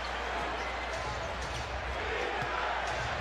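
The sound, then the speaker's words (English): Basketball dribbling on the court during a Raptors–76ers NBA game, with a player working the ball against a defender. Faint, repeated bounces sit under a steady, loud crowd roar. “Harden near side on the dribble against Achiuwa.”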